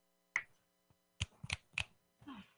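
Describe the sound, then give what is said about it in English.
A few crisp finger snaps, quiet and sharply separated by short gaps, with silence around each dry click. “When I snap my fingers, you will wake up feeling like the great new person you are.”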